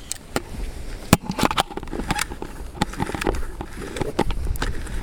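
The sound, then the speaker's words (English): A film camera is wound on to the next frame, giving a rapid run of many dry mechanical clicks and ratcheting ticks at uneven intervals. “So that was shot number 8. There we go. I'm just going to wind that on now.”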